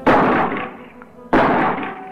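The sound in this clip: A shoulder-fired gun goes off twice, about a second apart: two loud, sharp blasts, each followed by a long fading tail.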